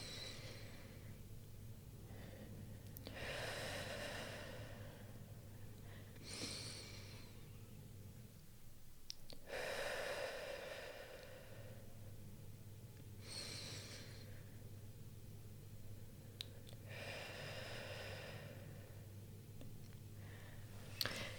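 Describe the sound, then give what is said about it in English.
Slow, deep breaths during a guided breathing exercise, drawing air into the belly and then filling the chest; a few long, soft inhales and exhales, faint and unhurried, with no talking. “So to begin, we're going to just close our eyes. And one big deep breath.”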